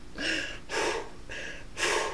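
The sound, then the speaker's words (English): Deep breaths before speaking: four long, breathy rushes of air in a slow, even rhythm, each loud and airy, with no talking between them. “So, hold on, let me give context. I just gotta breathe real quick.”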